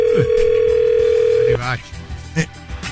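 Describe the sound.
A steady telephone tone from an outgoing call holds at one pitch for about a second and a half, then cuts off as voices begin talking.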